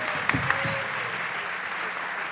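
Applause from a live comedy audience at SF Sketchfest in San Francisco, greeting a guest who has just come up. Steady, dense clapping fills the whole stretch, with a couple of brief sharper sounds near the start.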